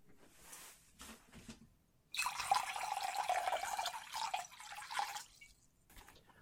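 Water runs and splashes during a ritual washing of feet, a steady hiss lasting a few seconds after a quiet stretch with a few faint sounds.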